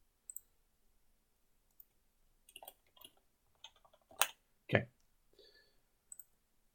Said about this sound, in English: Sorry, I'm writing something to message.